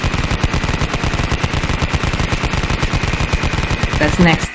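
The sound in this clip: A rapid gunfire sound effect: a fast, evenly spaced stream of many sharp shots, loud and continuous for the whole stretch, like a machine gun.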